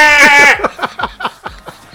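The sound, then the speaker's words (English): A goat's bleat played from a tiny plug-sized prank speaker: a loud, nasal, strongly pitched cry opens the sound and breaks into a string of quick, stuttering pulses that trail off unevenly. “it's just a standard plug with a little wee speaker on the end of it. You plug it in somewhere, and you walk away. 15 minutes later, you hear a goat going,”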